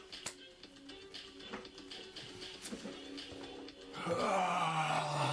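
Low, moaning growl of an undead drift dead creature in a tabletop role-playing game. It swells loud and sustained over the last second and a half, after a quieter stretch of scattered tapping clicks.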